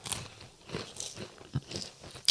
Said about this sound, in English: Here's a little cracker sandwich.